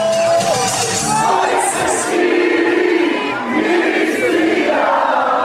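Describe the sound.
Crowd cheering from stadium stands at a match in Seattle, a loud and continuous roar of many voices with shouts and chant-like swells throughout.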